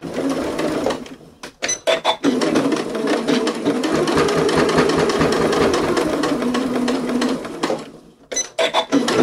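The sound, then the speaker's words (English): A sewing machine top-stitches fabric along a previous seam while making a face mask. A few short stitching bursts lead into one long, steady, loud run of rapid needle clatter, followed by a few more brief bursts. “Now I'm going to top stitch right along where I already top stitched before.”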